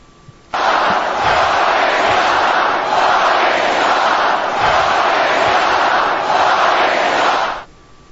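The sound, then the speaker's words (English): A wrestling crowd at a WWE title match between Jeff Hardy and Edge erupts in a loud roar that starts abruptly, surges in waves for about seven seconds, then cuts off. “See, there goes. The crowd's going wild.”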